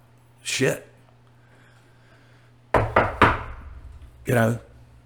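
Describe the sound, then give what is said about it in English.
Knocking on wood: three quick raps in a tight cluster, set between stretches of a man talking. “I don't even want to say the word, but I knocked on wood just in case.”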